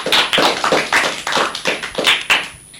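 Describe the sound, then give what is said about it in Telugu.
Clapping welcomes an eighth-grade student who is coming up to recite poems. The claps are sharp and distinct in a loose, uneven rhythm, with many in quick succession before they stop. “తనకు చప్పట్లతో స్వాగతం పలకండి.”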